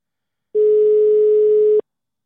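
A telephone ringback tone sounds while a caller waits for an answer: one steady, mid-pitched beep that holds for just over a second and then stops, with nothing else heard.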